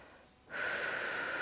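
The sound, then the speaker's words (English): A deep breath drawn in, with quiet air at first and then a sudden, steady, airy rush carrying a thin wheezy whistle. It holds for about a second, with no voices. “I can still breathe. Yeah. I can take another breath.”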